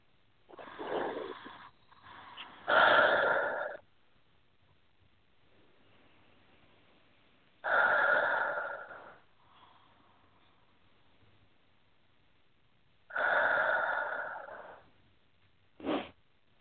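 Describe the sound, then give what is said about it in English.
Slow, deep human breaths, each a soft, airy rush of air, come in a steady rhythm. Long quiet pauses separate them, and no one speaks. “And take three nice, deep, deep breaths.”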